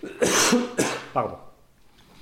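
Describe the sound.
Throat clearing: three rough, raspy bursts in quick succession, the last one weaker, trailing off into quiet.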